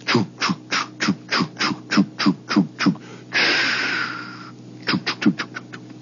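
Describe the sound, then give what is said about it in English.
Paddle wheeler steamboat with its calliope switched off, heard from a block away: many rhythmic chuffing exhaust puffs over a low steady hum, broken by a long hiss of steam before the chuffing resumes. “the calliope is turned off, and all you hear is... That's the way a paddle wheeler sounds from a block away.”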